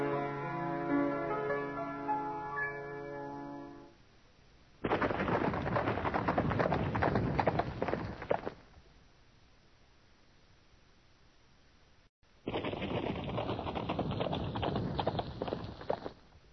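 Horses set off with a dense, rapid clatter of hooves, loud and steady in two separate bursts. A stretch of near quiet falls between the two bursts.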